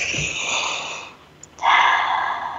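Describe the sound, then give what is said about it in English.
A deep breath drawn in during a guided group reflection: two long, airy rushes of breath with a short pause between them, the second louder than the first. “So let's breathe all of this amazing wisdom and encouragement in.”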